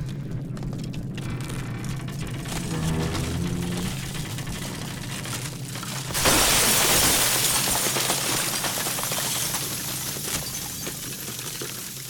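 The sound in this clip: Window glass shatters under a hissing jet of steam from a Martian machine. A sudden loud, bright burst arrives partway through and gives way to a sustained crackling hiss over a low rumble.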